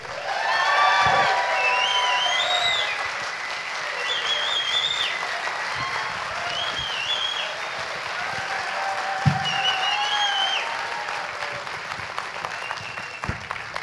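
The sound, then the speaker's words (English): Applause from a studio audience welcoming guest James Cosmo onto the stage, a steady, dense clapping that holds at an even level for the whole stretch with no voices above it. “So please put your hands together and give a very warm welcome to Mr. James Cosmo.”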